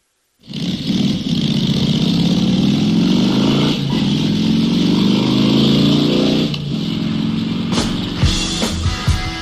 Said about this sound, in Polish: Jedziemy? Dokąd? Proszę pomyśleć. Rosja, może Rumunia, może na południe. Odpalajmy więc maszyny.